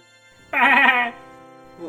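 A goat lets out a single loud, wavering bleat of about half a second during an outdoor goat yoga session on mats. Near-quiet background follows, with only a faint trailing sound at the end.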